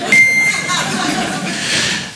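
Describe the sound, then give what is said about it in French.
An answering machine beep: a single short, steady high-pitched electronic tone sounds near the start and stops cleanly, followed by a noisy background. “C'est une star internationale, il est là pour vous ce soir, mesdames et messieurs, le bip.”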